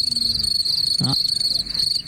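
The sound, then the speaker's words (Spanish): Crickets chirp in a continuous, high, shimmering trill that holds steady throughout, with a brief low thump near the middle. “Pero acá ponen grillo, ¿viste?”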